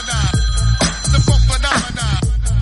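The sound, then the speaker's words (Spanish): A telephone rings with an incoming call, sounding as loud electronic ring pulses that repeat at a steady rhythm throughout, with no talk. “llamada, llamada, llamada.”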